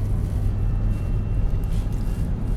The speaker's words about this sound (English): Hope you guys don't hear too much vehicle noise. I'm sure you do.